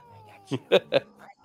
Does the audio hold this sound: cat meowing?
yes